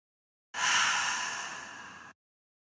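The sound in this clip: A single deep, breathy exhale begins abruptly after silence, starts strong and slowly fades over about one and a half seconds, then stops cleanly, heard alone.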